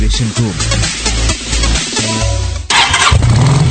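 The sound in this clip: A motorcycle engine cranks and catches, its loud, stuttering mechanical pulses settling into a running engine, then a louder, denser burst of sound takes over near the end.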